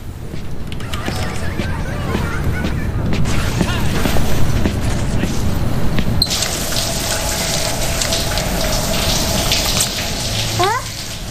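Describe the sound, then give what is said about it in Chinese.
A shower runs as someone bathes, giving a steady rushing hiss of spraying water that turns brighter and fuller partway through and keeps going to the end. “那我洗澡去了。”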